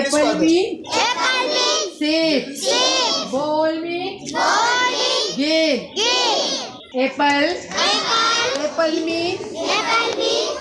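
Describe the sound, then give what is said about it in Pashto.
Children's voices at an informal community school held in a house in a village near Mardan: many young voices speak and call out together in loud, overlapping bursts that continue throughout. “دا آوازونه د 400 انعام کلی هغه ماشومانو دي څوک چې دغلته د کلی مینس کې په یو کور کې جوړ غیر رسمي یا نان فارمل کمیونټي سکول کې تر پنځم جمعات زده کړه”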